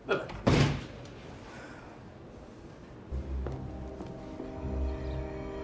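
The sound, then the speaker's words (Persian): A door being closed shuts with a single loud slam near the start, followed by a low rumbling background with voices. “حالا درو ببندید الان دیگه موقعش حالا ببندید کامل ببندید”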